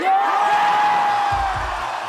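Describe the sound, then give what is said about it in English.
A live concert audience cheers, with a long, high sustained whoop riding over a broad crowd roar, followed later by a few low thuds as the cheering eases slightly. “I've here elected to play for you the live version of the song, with all of its foot stomping and audience cheering.”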